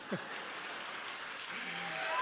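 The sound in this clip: Faint audience clapping during a talk about relationships, a soft, even patter of hands with a voice briefly heard at the start and again partway through.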